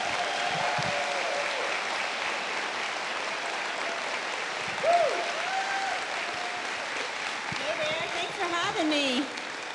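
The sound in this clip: Church audience applauding a guest speaker, a sustained, even wash of clapping that carries on across the whole clip with only small swells in loudness.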